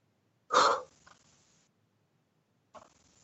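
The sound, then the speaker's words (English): A deep breath drawn and released during a guided meditation: one strong, airy rush of breath, then near silence, with a fainter breath near the end. “let's take a deep breath and release it”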